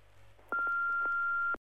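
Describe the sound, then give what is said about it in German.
A telephone answering machine sounds one steady mid-pitched electronic beep for about a second, then cuts off sharply, after faint line hiss and a few soft clicks. “Hallo, das ist der Anrufbeantworter von Dani. Bitte sprechen Sie nach dem Ton.”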